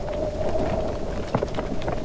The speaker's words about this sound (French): Tout en haut du donjon, un drapeau flotte dans le vent.